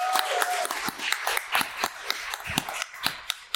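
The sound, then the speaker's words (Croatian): Audience applause at a speaking event, made of many sharp, distinct hand claps scattered irregularly across about three and a half seconds, moderately loud and fairly sparse rather than a dense roar. “Evo jedan lijepi veliki pljesak, molim za Izabelu.”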